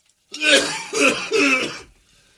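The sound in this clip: A phlegmy, wet cough sounds as three harsh throat-clearing bursts in a row, each fairly loud and about equally spaced, then a brief quiet tail.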